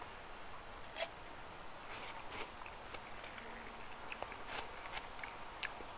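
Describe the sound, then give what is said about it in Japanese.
Faint biting and crunching of a Garigari-kun ice pop. A few sharp crunches stand out from soft, continuous chewing noise, with no talking. “うまいわガリガリ君”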